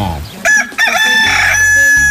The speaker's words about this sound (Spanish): ¡Qué bonito canta mi gallo! ¿A poco no? Sí, señor, canta requetre chulo de pechocho. ¡Qué bonito le canta mi gallo para que se despierte!